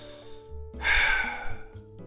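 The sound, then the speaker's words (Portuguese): Heavy breathing voiced for a character: a few slow breaths, with one loud, drawn-out exhale in the middle, over a faint sustained tonal background. “Macau inspira de forma pesada, né?”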